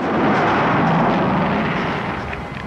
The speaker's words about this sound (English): The spaceship hurtles back towards the ice. The catchman runs for cover as it crash lands, sending up a plume of ice crystals.